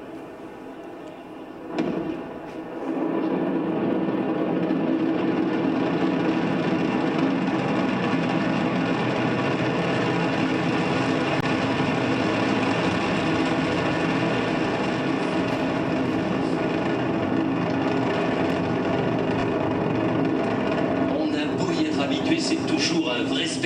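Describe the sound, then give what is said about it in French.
Ariane 5 rocket launch at Kourou by day, with Vulcain engine ignition and liftoff: a short burst, then a sustained, steady, broad roar that holds at full strength for about twenty seconds. “Allumage Vulcain. Allumage AP. Décollage.”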